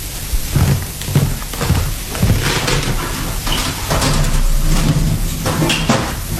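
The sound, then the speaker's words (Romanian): Heavy grinding and scraping as an entrance to catacombs is opened, a continuous rough noise over a low rumble that runs the whole time and grows somewhat louder in the second half. “Ca să deschid intrarea spre catacombe.”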